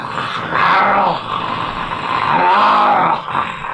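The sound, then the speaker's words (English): A creature rising from a pool lets out a deep, rough groan like a growl. It swells loudly twice with a rumbling texture and no voices. “You hear a groan coming in from the pool proper”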